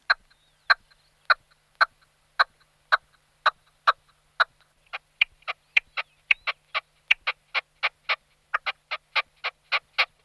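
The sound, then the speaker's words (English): Red-legged partridge calling alone: a long series of sharp, harsh clucking notes, evenly spaced at first, then quickening into a faster, louder run. “Same goes for that other target bird, the red-legged partridge.”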